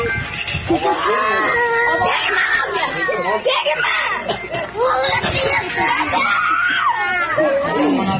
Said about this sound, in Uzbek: Uning bolalari chirillab yig'laydi.